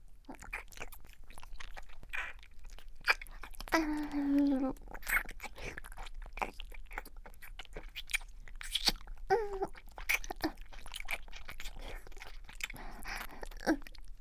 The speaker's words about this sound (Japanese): 真っ赤な気筒をベロベロ舐め回す音、なんだか耳舐めの音に似てるよね。